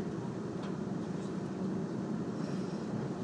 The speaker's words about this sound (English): So there we are on the 3:35 from Waterloo. It's stopping